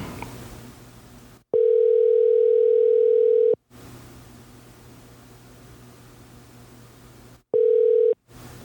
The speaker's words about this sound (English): Hey. I'm going to call him. Hold on. One second.